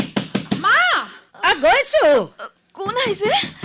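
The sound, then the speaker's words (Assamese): Knocking on a door, a few quick raps at the start, followed by people talking. “দুৱাৰত কোনোবাই ঢুকিয়াই আছে।”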